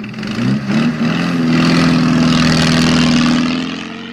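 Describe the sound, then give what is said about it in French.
An old car engine starts and drives away: a few rough, uneven chugging bursts give way to a loud, steady, low droning rumble that tapers off at the end. “Samuel réapparaît, monte dans l'auto, la démarre et s'enfuit avec Billy.”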